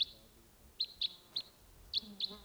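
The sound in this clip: Decoy birds call in short, high chirps. There are six faint, brief chirps, spaced irregularly over a quiet background.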